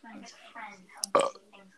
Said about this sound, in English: stop burping on the podcast. It's disgusting.